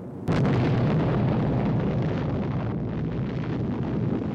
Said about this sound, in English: Less than a month after the Trinity test, the U.S. drops two atomic bombs in Japan. First on Hiroshima.